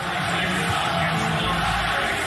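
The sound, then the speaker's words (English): Crowd at Madison Square Garden jeering Kyrie Irving, a loud continuous roar of many voices with a rough, massed texture throughout. “As the crowd starting to serenade Kyrie Irving.”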